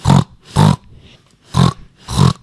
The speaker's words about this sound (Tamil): இது பேர் பன்னி சத்தம்.